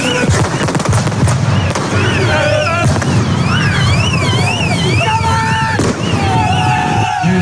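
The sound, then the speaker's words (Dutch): Bangs of fireworks and flares set off by Utrecht football supporters ring out at an evening gathering, a few sharp cracks within a loud, constant roar of crowd noise with shrill, wavering whistle-like tones. “Ze probeerden de record international gisteravond over te halen met fakkels en vuurwerk.”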